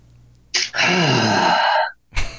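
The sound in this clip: A person draws a deep breath: a quick intake, then a long, groaning, voiced exhale like a heavy sigh, followed by another short breath.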